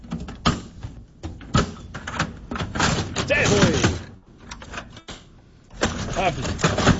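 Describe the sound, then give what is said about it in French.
Harsh clacks and thumps of an office printer's paper tray being shoved and slammed shut with force, several loud banging impacts spaced irregularly with rattling scrapes between them. “C'est le tiroir à feuilles de notre imprimante, mesdames, messieurs.”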